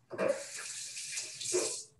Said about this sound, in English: I need to rinse my hands first.